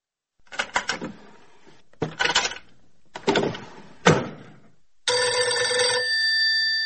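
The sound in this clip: Telephone ringing with an incoming call: several clattering knocks and handling noises come first, then a bright electronic ringtone starts and sounds steadily to the end.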